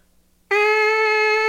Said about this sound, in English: then the sound is completely resonating in the mouthpiece.